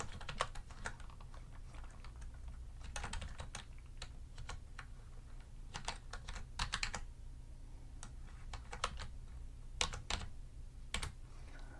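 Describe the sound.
Typing on a computer keyboard as a credit card number is keyed in at a hotel check-in desk: many quick, soft key clicks in irregular bursts over a low, steady hum, with no talking.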